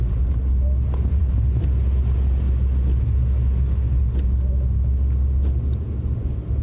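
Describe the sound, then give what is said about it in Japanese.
A car drives along a snow-covered road, producing a steady, deep rumble with constant wind noise and a few faint ticks over it. “今、雪積もっててめんどくさいですね、道路が。まあ、とりあえず走ってますけど。”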